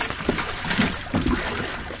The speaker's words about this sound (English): The morning sun glistens on the harbor as Noddick and Jones reel in a baby shark. It splashes around as they place it inside a cooler on deck.